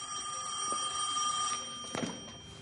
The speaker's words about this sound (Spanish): En una casa una mujer de unos 50 años responde al teléfono.